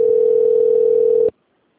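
Telephone dial tone after a dropped phone call: one steady, unbroken mid-pitched tone holds for about a second and a quarter, then cuts off abruptly into silence.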